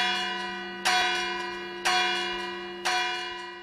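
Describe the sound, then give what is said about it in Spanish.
Church bells ringing to alert the neighbours during a large house fire: three evenly spaced strikes about a second apart. Each strike is bright and loud, with a long, humming ring that fades slowly. “Han llamado las campanas a todos los vecindad.”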